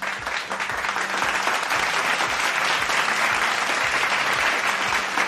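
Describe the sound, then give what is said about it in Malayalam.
Steady applause from an audience at a quiz event, dense clapping that holds at an even, fairly loud level through the full five seconds. “കൊടുക്കാം നമുക്ക് clap.”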